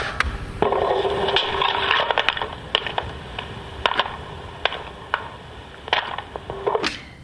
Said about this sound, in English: I'm now filling up the bucket with turf, plus a few chirons to put on top of the fire.